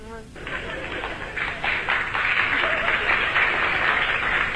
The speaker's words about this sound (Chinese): 那就鼓掌的人不多鼓掌的人都是南方人